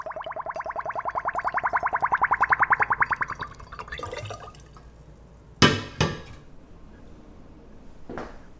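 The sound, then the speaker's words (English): Homemade plum wine draining through a funnel into a bottle: rapid bubbly gurgling as air escapes, swelling louder for a few seconds, then quieter, followed by a few sharp glassy clinks. “This is wine draining through a funnel.”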